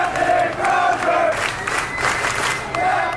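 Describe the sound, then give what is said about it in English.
Hundreds of sailors cheer loudly as their relieved commanding officer walks down the gangplank off the Roosevelt, a dense crowd roar with whoops and shouts rising out of it throughout. “He walked off the Roosevelt, and as he went down the gangplank, hundreds of sailors, too many to even count from the videos that are out there of this, cheered him as he walked off the ship.”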